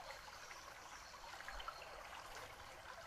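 Soft, steady babbling of river water, a faint continuous trickle and splash with no voices.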